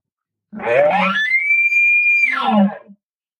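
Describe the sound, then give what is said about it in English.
An elk announcing bugle, made with a call, that is moderately intense rather than aggressive. It opens with low, raspy grunting, rises into a long, steady, high whistle, then falls back to a grunting finish, heard alone. “I'm just going to give like a real announcing bugle, like, hey, what's up? I'm here. Where are you at? And it'll sound something like this.”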